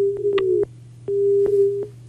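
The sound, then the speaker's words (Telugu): A telephone line cutting off during a call to a radio phone-in: a steady mid-pitched tone sounds, stops briefly, then returns over a constant low hum, with faint clicks through it. “మరి phone line cut అయినట్టుంది లేదంటే signal లేదో.”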